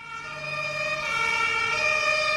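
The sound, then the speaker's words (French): Emergency vehicle siren from a rescue vehicle dispatched to a cardiac emergency at a housing estate in Bobigny: a steady wail of stacked tones that grows slightly louder over about two seconds, with no speech. “Un véhicule de secours se met immédiatement en route.”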